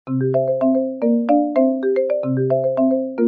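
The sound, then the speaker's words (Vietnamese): A telephone rings suddenly with a melodic electronic ringtone, a bright phrase of stepped notes repeating steadily and loudly with no voices over it. “Lúc này điện thoại bỗng vang lên.”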